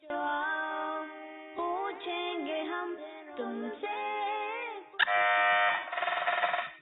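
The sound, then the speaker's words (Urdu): An electronic buzzer sounds on a Quran quiz show as a contestant presses in to answer. Bright harmonic tones step through several pitches and end in a louder, brighter burst. “Buzzer بجانے میں کامیاب ہوئے ہیں”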